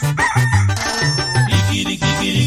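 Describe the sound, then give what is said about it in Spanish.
A rooster crows loudly in repeated warbling calls, set over a rhythmic, low-pitched pulsing accompaniment that runs underneath the whole time. “Mucha gente me ha dicho que el canto del gallo recuerda cuando uno está mal.”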